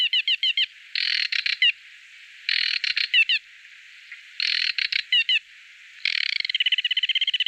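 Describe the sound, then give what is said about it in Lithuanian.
Song of the rare aquatic warbler: several high, buzzy phrases of rapid chattering trills separated by short pauses, ending in a long, fast, steady trill. “šis paukštelis yra ypatingas, gal net ir atspėjote, tai buvo retoji meldinė nendrinukė.”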